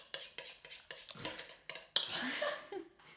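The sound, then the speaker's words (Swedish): Pancake batter whisked in a bowl: a run of quick, evenly spaced metallic clinks against the bowl gives way to a steadier swishing scrape before fading out. “vispar pannkakor mitt i podden”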